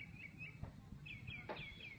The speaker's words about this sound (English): I heard the birds singing.